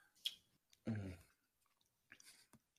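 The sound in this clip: Faint chewing of a water cracker topped with brie: a few short bursts of soft crunching and wet mouth sounds separated by quiet gaps.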